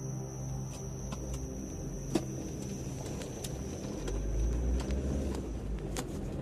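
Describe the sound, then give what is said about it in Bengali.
A car drives from a brightly lit town road onto a village road. A steady, low engine and road rumble holds throughout and grows slightly heavier toward the end. “নিউটাউনের ঝাঁ চকচকে আলোকচিত রাস্তা পেরিয়ে গ্রাম্য রাস্তায় ঢুকল অমরেশ রায়। গাড়ি চালাচ্ছে শ্যামল”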